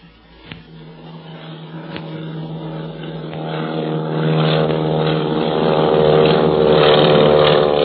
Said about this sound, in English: Takeoff. You can sure tell Barney learned how to fly in the Army Pursuit Squadron. Hey, look, he's banking. He's going to come back and circle over us.